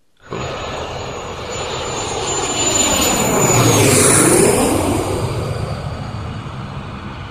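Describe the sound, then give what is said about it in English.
An airplane takes off: a broad engine roar with a thin high whine swells steadily in loudness over several seconds, peaks, then eases slightly. There are no voices. “So are we ready for takeoff? The audience is here. All mics are on mute. Trays are in the upright position. And, yes, we have gotten clearance from the tower for takeoff.”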